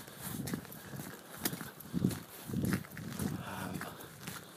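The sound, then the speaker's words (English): Livestock sounds on a farm during a walk, with low, swelling animal calls and soft thuds at an uneven pace. “Just walking through a farm.”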